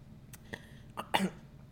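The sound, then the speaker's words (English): Coughing and throat sounds from someone choking on their own saliva: a few short, harsh bursts spread over under two seconds, with the last one the loudest and longest. “Excuse me, I'm just choking on my own saliva over here. I bet that sounds really good into the microphone.”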